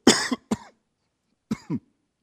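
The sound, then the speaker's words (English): A person coughs in two clusters: three short harsh coughs, a pause of about a second of silence, then two more quick coughs, each burst loud and abrupt. “look at Satan, doesn't want me to get that one out. Make him cough.”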